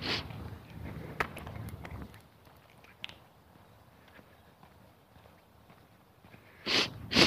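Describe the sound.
Sniffing through a runny nose: a couple of breathy sniffs at the start, then quiet, then two sharp, louder sniffs close together at the end.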